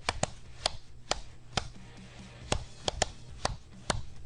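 Knuckles rap out the rhythm of Happy Birthday on a hard surface, sharp dry knocks in an uneven, melody-like pattern with short and long gaps, moderately quiet.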